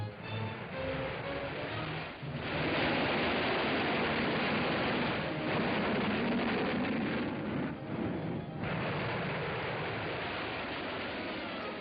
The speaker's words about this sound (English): Here are official Defense Department films of the launching of the 72-foot missile, a loss of thrust, and fall back to Earth in split seconds.